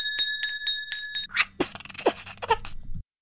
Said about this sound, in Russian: отобрала звонок и яростно начала им звенеть. Белка, звонящая в звонок, очень повеселила всех участников праздничной линейки.